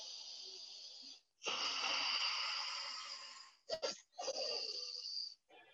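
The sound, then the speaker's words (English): Forceful pranayama breathing demonstrated by one person: loud, rough rushes of air in long strokes, broken by a quick pair of sharp bursts before a final long stroke. “Lot of time this pranayama, people are practicing very forcefully, like.”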